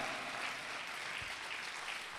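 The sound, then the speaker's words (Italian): Applause from an audience at a religious service: a continuous, even wash of many hands clapping, fairly faint, with no distinct individual claps standing out. “Questa sera possiamo fare un applauso a Gesù che è morto per noi.”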